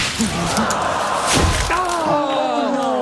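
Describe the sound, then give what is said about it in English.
In a golf video game, a ball sliced off the tee crashes into trees with a single dull thud and crunch midway through, heard against steady background noise. “Lines up his shot and slicing into some trees”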